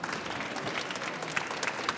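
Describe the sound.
Audience applause at a stage event during the Leipzig Book Fair. Many hands clap in a dense, steady patter for the full two seconds, with a few sharper claps standing out.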